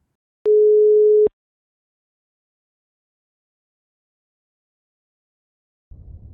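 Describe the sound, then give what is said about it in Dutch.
A telephone call tone sounds while dialing: one steady, mid-pitched beep lasting under a second, then silence and a faint low rumble at the end. “We bellen Henk. We gaan bellen met Henk.”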